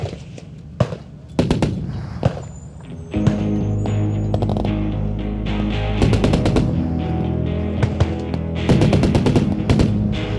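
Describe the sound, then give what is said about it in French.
Machine gun fire at a shooting event: sharp single cracks at first, then loud bursts of rapid automatic gunfire over a steady tonal drone. The bursts recur a few times through the stretch. “Deux jours sur le Big Sandy Shoot suffisent à vous fatiguer des armes jusqu'à la fin de vos jours.”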